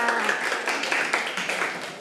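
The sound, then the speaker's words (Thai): Children in a classroom clapping for a classmate: light, uneven applause from a group of young hands, with a voice briefly audible at the start and the clapping easing slightly toward the end. “เด็กๆปรบมือให้เพื่อนค่ะ”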